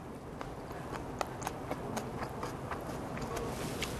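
Faint chewing of a bite of a soy sauce and sesame dish, with many small, crisp clicks at an uneven rhythm and no talk.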